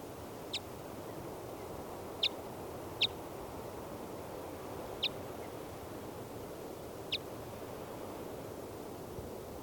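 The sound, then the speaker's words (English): Five short, sharp high-pitched calls from a female bird off her nest atop a 40-foot lodgepole pine in a clearing, faint and irregularly spaced over a steady background hiss. “So recording, the female is off the nest in the top of a 40-foot lodgepole pine in the middle of a clearing. This is the female.”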